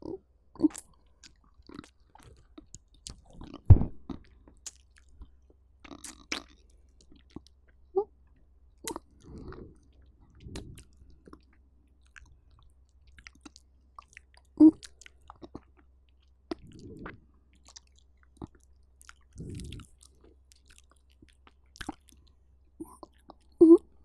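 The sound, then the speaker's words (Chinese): Wet licking and mouth noises come in scattered bursts: many soft smacks and clicks, some sharper than others, with a few breathy whisper-like puffs between them, all fairly quiet and set against near silence. “我再多舔一舔，”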